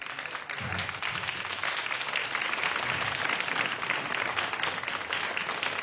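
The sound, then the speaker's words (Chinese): A concert audience applauds at a performance of Cantonese music, a thick, continuous patter of many hands that stays at an even level from start to finish. “给你掌声”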